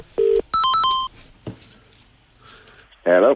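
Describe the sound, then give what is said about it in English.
A telephone rings out on a call to a plumber: a short low tone, then a quick run of bright electronic notes, a faint click and quiet line hiss, before a voice answers. “And Tony would love to ring them.”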